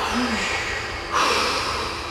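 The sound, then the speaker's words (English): A powerful exhale during a guided breathing exercise at a ceremony: one forceful, airy rush of breath that starts about halfway through and carries on to the end over a steady hiss. “Let it swell into your body whenever you're ready. Powerfully exhale it out into the room.”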